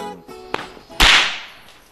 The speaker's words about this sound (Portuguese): A moça sabe estalar um chicote. E bem.